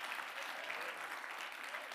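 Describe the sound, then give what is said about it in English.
Soft, continuous hand clapping from a church audience praising the Lord, an even wash of many claps that stays steady throughout with no voices rising above it. “Somebody clap your hands and give the Lord a big praise.”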